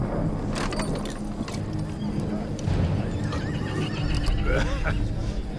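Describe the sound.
Horses of two mounted riders neighing on a plateau, with hooves clip-clopping: a few loud whinnies with wavering, quavering pitch rise over a continuous gritty wash of hoof and ground noise.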